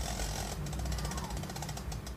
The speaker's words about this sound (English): an abrupt clicking, representing little to no light.